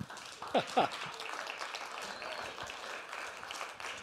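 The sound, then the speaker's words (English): Applause from a church audience welcoming a speaker, a soft, steady wash of clapping throughout, with brief vocal sounds near the start. “so please just give him a warm welcome, would you?”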